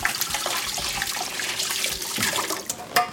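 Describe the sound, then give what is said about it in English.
A kitchen tap runs as oily hands are rinsed under it during cooking, a steady splashing hiss with small uneven spatters and a brief sharper burst of water near the end. “Okay, but now I have to rinse my hands. Hang on. because they're all oily.”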